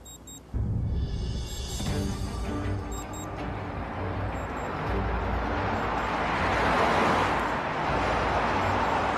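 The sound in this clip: A car passes, its broad rushing engine and tyre noise swelling gradually to a peak and then easing slightly.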